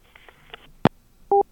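Telephone handset hung up with a sharp single click, then a short, loud dual-tone beep from the line, preceded by a faint electronic hum.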